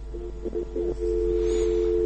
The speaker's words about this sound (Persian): فکر کنم چه تلفن قطع شده